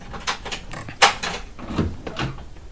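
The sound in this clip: A door being unlocked and opened: a sharp click stands out among a few muffled knocks and scraping handling sounds at a moderate level.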